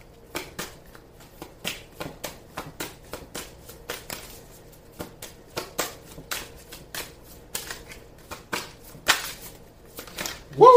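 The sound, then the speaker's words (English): Tarot cards being shuffled and drawn for a reading, with many quick papery riffles and snaps in an uneven rhythm and a slightly louder burst at the very end. “May I have a card, please, for Capricorn?”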